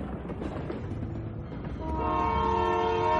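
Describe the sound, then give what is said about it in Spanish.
A train running between Manchuria and Moscow: a steady rolling rumble, then a sustained, multi-toned horn that sounds about midway and holds loudly to the end. “Un tren, ¿no? Que hace el recorrido entre la Manchuria y Moscú”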